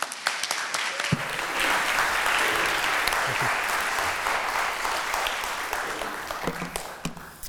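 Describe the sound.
A church audience applauds to welcome a guest speaker at a Sunday morning service: a few scattered claps swell into loud, sustained applause that holds for several seconds, then thins near the end.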